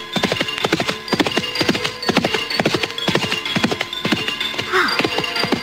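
Horse hooves clip-clop in a steady, quick rhythm as a horse pulls a cart, with a short whinny near the end.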